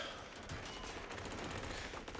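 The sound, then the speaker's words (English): Rapid M4 rifle gunfire in an action film scene, dense sharp cracks firing continuously and loudly throughout with no pause. “One of our favorite stuntmen getting shot in the head. Again, Keanu showing off his gun skills. The M4.”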